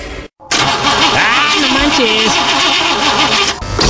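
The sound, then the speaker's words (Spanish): A car engine cranks but fails to start after new engine seals and spark plugs were fitted. The loud, steady churning whir of the starter runs for about three seconds after a brief silent gap. “Le acabo de poner los sellos al motor, le cambié bujías y ya no quiere jalar.”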